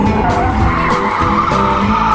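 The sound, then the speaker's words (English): Race car tires skidding and burning rubber on a modified 600-horsepower car from an all-female racing team, heard as a continuous, loud, harsh screech with a rough rumble underneath that holds steady throughout. “And boy, can they burn that rubber.”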